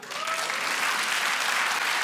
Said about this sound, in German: Habt ihr Kinder? Einmal per Applaus.